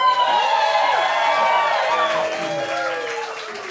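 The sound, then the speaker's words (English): Cheering and whooping from a live audience at a stage show recording, with sliding vocal tones over a bed of applause, loud and sustained throughout. “This episode of Joe Jupiter was recorded at Stage 773 in front of a live audience.”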